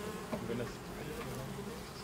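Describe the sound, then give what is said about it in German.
Bees buzz in a continuous, faint, wavering drone of many insects, with no other clear sound rising above it. “Diese Bienen stechen nur, wenn sie sich gestört fühlen.”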